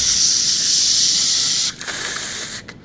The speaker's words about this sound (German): Die Rauchgranate geht los.